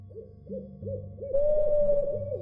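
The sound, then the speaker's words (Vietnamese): An owl hoots in many short, evenly repeated calls. Partway through, a steady sustained tone enters and holds under the hoots, and the sound grows louder from there to the end. “Tiếng cú bắt đầu kêu vang ngày càng lớn.”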